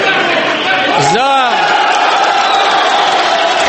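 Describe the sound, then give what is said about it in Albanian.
A noisy din of applause and voices fills the Ukrainian parliament chamber as ratification of an extended Russian fleet stay in Crimea is announced. One loud shouted voice briefly rises above the steady, dense crowd noise. “Kreu i Parlamentit Litvin njoftoi ratifikimin mes fishkëllimave dhe duartrokitjeve.”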